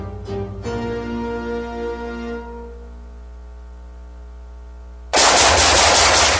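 Rifle gunfire bursting in loudly as a dense, continuous rattle of rapid shots, following a fading tonal hum that drops away beforehand.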